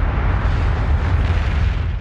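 A booming explosion sound effect: a loud, continuous roaring rumble that holds steady for about two seconds, heavy in the low end, with no voices.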